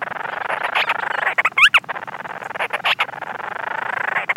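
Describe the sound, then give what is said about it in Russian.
Night-time calls of storm petrels, burrow-nesting seabirds on the Commander Islands: a rapid, buzzing churr of pulsed notes running steadily throughout, with one sharper chirp standing out near the middle. “кочурки тоже есть на командорах, это тоже буревестникообразные птицы, и они активны ночью, то есть я их ни разу не видела вживую, но по ночам постоянно слышны их крики.”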